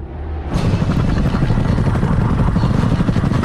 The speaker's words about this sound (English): Two black helicopters power across the dusty hills of the Syrian desert.